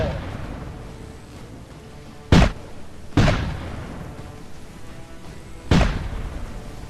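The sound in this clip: Cannon fire in a naval battle against corsair ships: three sharp, heavy booms spaced unevenly apart, each standing out loud above a low, rumbling background.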